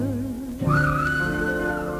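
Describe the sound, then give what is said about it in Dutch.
A train whistle gives one long, steady, high tonal note that holds for over a second, entering after a quieter low tonal background and sustaining evenly to the end. “Daar fluit een trein en als ik dat hoor, dan gaat mijn verbeelding er met me vandoor.”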